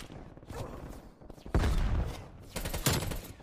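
Video game gunfire crackles in a few loud bursts, with a sustained barrage standing out partway through and another sharp volley near the end, over a continuous rumbling background.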